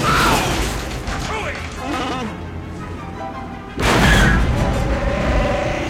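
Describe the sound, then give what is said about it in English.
A radio drama effect of the Falcon spaceship lurching and tools crashing down. Rumbling, bleat-like vocal sounds come first, then a sudden loud crashing burst about two-thirds of the way through stays heavy to the end. “The Falcon lurches, causing tools to fall on head.”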